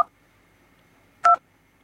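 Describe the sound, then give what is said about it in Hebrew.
Telephone keypad dialing tones: a clipped dual-tone beep at the very start, then one clear, short electronic key tone after a quiet pause. No voices are heard. “אני הולך להשמיע לכם עכשיו את צלילי המקשים.”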